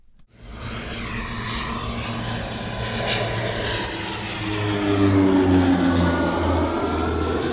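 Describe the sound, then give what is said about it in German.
Loud, steady propeller-aircraft engine drone as an airplane lands at a small bush airfield near Kruger National Park in South Africa. The deep humming tones hold throughout and grow slightly louder toward the end, with no voices. “Landung in Nelspruit, dem kleinen Buschflugplatz in der Nähe des Krügerparks, mitten in Mpumalanga, dem ehemaligen Osttransvaal.”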